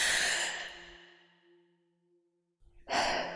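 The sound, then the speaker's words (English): A deep breath during a guided meditation: a long, breathy exhale that fades over about a second, then a quiet pause before another audible breath starts at the end. “Now, take a deep breath.”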